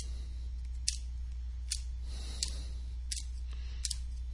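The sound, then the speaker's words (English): Tarot cards are laid out one by one on a table, giving a handful of faint, crisp snaps spaced roughly evenly apart over a low, steady hum. “Okay, so I lay out the 10 cards.”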